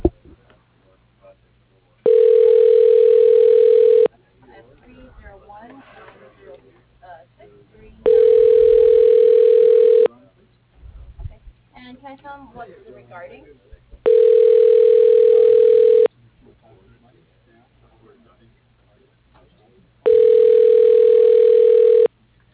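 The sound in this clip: Ringback tone on a telephone call being transferred to voicemail: four evenly spaced, steady mid-pitched tones, each about two seconds long, with faint voices and line noise in the gaps between them.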